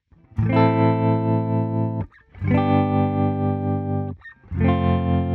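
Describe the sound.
Electric guitar played clean through an effect unit placed after the amp: three sustained, ringing chords, each held for about two seconds, with short breaks between them. No one talks.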